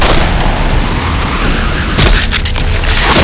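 A gunshot is fired at a huge tentacled creature on shifting desert sands: one sharp boom bursts out about two seconds in, over loud, continuous rumbling noise.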